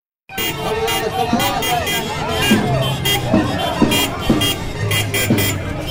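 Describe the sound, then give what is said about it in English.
A line of cars honking their horns during an election rally on a town avenue in the Galápagos: repeated toots and blaring horn notes over a dense wash of engine noise and crowd babble. “this line of cars comes around the corner. Honking. Endless honking.”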